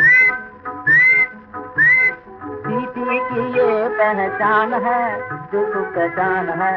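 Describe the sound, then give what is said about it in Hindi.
Whistling as a signal, opening with three short, high whistled phrases and followed by a denser tonal passage that carries on at a similar level. “धीरे धीरे सीटी बजाऊंगा, मेरी सीटी की ये पहचान है”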